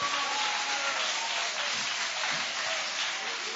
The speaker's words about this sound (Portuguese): pode ser mais forte essas palmas que é para Jesus